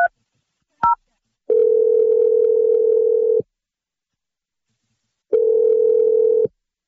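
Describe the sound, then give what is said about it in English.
A phone call is placed, with two short touch-tone dialing beeps followed by two long, steady ringback tones separated by a gap of silence. “I'm dialing your ex-boyfriend”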